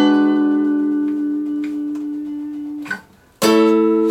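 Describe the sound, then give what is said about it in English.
A diminished chord built from two stacked minor intervals rings out sustained and slowly fading, then is struck again loudly near the end. “Now, if you want a diminished chord, which sounds like this,”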